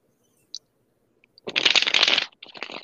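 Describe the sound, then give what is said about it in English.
Tarot cards being shuffled: a tiny tap first, then a loud burst of riffling and a second shorter burst, with no talking. “So let me just go ahead and get these cards ready.”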